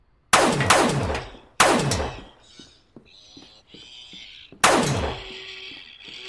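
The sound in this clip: Gunshots fired at a mechanical robot bartender: three loud, sharp blasts, each trailing off in a long ringing decay, with softer clicking and clattering sounds between the second and third shots.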